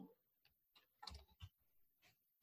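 Quiet typing on a computer keyboard during a lesson, a few irregular soft key clicks with short gaps between them.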